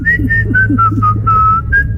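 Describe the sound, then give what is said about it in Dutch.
A person whistling a bright tune of clear, separate notes in a steady, lilting rhythm, loud and alone over a faint low hum. “die gaat al fluitend door de woensdagmiddag.”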